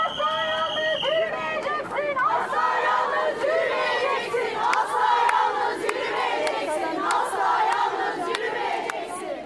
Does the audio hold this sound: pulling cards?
no